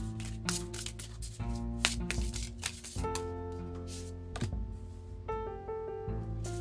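Tarot cards are shuffled and drawn in soft, papery riffles and a few brief flicks, faint beneath sustained, gentle musical tones.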